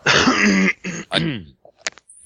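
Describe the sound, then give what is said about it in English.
A few harsh coughing bursts into a briefly unmuted microphone, the longest first, followed by a couple of shorter coughs and small faint clicks. “You just unmuted and coughed and then muted your mic again.”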